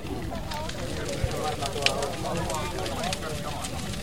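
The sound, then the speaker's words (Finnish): A large bonfire, only partly alight with flames spreading slowly, burns with a steady rushing crackle and two sharper pops. Voices murmur faintly beneath it. “Kokko ei vieläkään ole kokonaan tulessa, vaan tuo toinen puoli tuosta kokosta. Aika hitaasti se leviää tuonne kohti keskustaa.”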